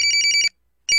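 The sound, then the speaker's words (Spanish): A telephone ringing: a bright electronic trill of rapid pulses, a short silence, then the same ring starting again. “Por favor, contesta ese mendigo teléfono.”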